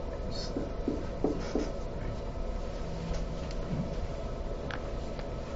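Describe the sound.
Handwriting as math is written out, a continuous dry scratching of strokes with a few brief taps, steady and fairly quiet.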